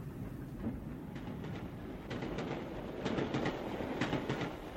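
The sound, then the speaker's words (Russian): A passenger train pulls out of a station with a broad, steady rumble and scattered rail clicks. It grows slightly louder partway through. “поезд набрал скорость.”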